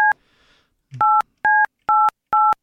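Phone keypad dialing a number to place a call: five evenly spaced two-tone beeps, the first cut short at the start, with a faint rustle in the pause before the last four.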